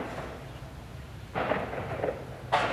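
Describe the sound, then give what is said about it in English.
Artillery practice firing at an active military base on Kinmen island, Taiwan: two muffled booming cracks with rumbling tails over a steady low background noise. “You can hear behind me the crack of artillery practice, which is just a reminder that even though a lot of troops already left Kinmen, some of it's still an active military base because of its proximity to China.”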